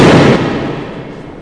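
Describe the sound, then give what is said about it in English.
Gunshot fired at security cameras in a store: a single loud, sharp blast that rings out in a long, slowly fading tail, with no voices. “And there goes cameras 7 and 3. Well played. Just because one person shot cameras with a gun that was not supposed to be here in the first place doesn't mean the rest of you have to take out your guns”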